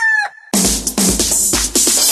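A gamecock at a cockfighting tournament gives a short, harmonic crow. Loud, dense bursts of noise follow at once and fill the rest.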